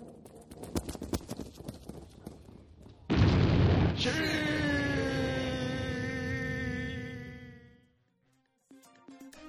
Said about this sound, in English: The bomb exploding around them.